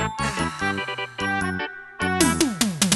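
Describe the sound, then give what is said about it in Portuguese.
A bright Plim Plim chime jingle from a children's TV program: quick plucked, bell-like notes in a bouncy pattern, a brief pause, then a dense, glittering run of tones to close. “Atenção ao toque do Plim Plim.”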